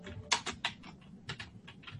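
A folder name is typed on a computer keyboard in two quick runs of light, clicky keystrokes separated by a short pause.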